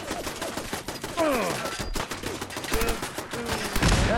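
A .45-calibre submachine gun fires in a video game, a rapid string of sharp cracks in close bursts, mixed with sweeping game effects and a loud burst at the end.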